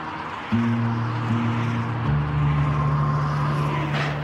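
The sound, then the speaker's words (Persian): Steady low engine drone from a car being driven, the hum shifting to a different pitch about two seconds in and carrying on evenly, with a faint whoosh near the end. “مالک داره به سمت شرکت رانندگی میکنه.”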